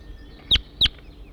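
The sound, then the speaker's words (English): A wild bird sings in flight: two short, bright, high chirps close together, standing alone over a faint low hum. “Start recording the wild bird now in song.”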